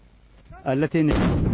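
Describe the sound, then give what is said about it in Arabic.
Artillery cannon fire at a front line: a deep, rumbling blast rolls in around the middle and lingers to the end, with a voice speaking over it. “سمت صوت الحوار وانطلقت أصوات المدافع، ونحن الآن أول فريق صحفي يصل إلى هذا المكان. اندلعت أصوات المدافع في الجبهة الأمامية”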